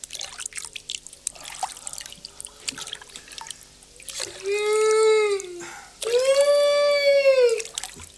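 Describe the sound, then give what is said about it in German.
Water drips and splashes aboard an old motorboat on the Orinoco river, making scattered faint drops and trickles, followed by two long, drawn-out tonal sounds. “Wir sind an Bord eines alten Motorbootes, weit, weit weg von allem, und fahren den Orinoco runter.”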